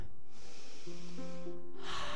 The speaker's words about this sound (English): Let's breathe in.